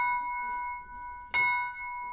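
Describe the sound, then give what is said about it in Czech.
A small church death-knell bell rings a clear, high tone that sustains throughout, with one fresh strike about two-thirds through renewing the ring; fairly quiet and alone. “tak se zvoní na tamhle ten maličkatý zvon vzadu. Zvoneček. Zvoneček, umíráček se mu říká.”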